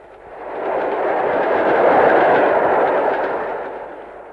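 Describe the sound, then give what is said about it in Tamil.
An approaching train: a broad, noisy roar swells steadily to a peak near the middle and then eases off slightly, with no voices over it. “Train கிட்ட வந்துருச்சு.”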